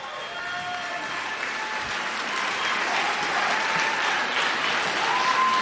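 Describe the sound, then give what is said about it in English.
A standing ovation from an audience after a live performance: sustained, thick clapping from many people that swells slightly louder toward the end. “How about that, y'all? Standing O.”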